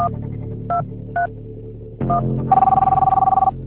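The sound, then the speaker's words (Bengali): Mobile phone key beeps as a call is placed: three short electronic tones, then a steady warbling ringback trill lasting about a second, over a constant low hum. “Jharna, ঝর্ণাকে phone দিতে হবে।”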